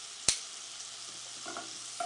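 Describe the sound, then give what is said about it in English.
Beef searing in butter in a pan gives a soft, steady sizzling hiss throughout, with one sharp click near the start and a few faint crackles later. “So I always do a little bit of butter in there just to kind of take it to the next level. All right, let that continue to sear”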